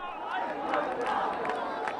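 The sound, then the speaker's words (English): Crowd of many people gathered for a political demonstration in Dhaka, Bangladesh, a dense, continuous murmur of overlapping voices and chatter that stays steady throughout. “A vast crowd gathers for yet another political demonstration in Bangladesh's capital, Dhaka.”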